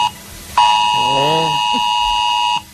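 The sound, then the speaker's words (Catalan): A harsh mobile phone emergency alert tone from a mass test alert sent to phones. It is loud and steady with a buzzing edge, starts abruptly, lasts about two seconds and cuts off. A brief voice sounds over it partway through. “poc més del 90% dels telèfons mòbils han rebut correctament l'alerta, que recordem-ho, sona així.”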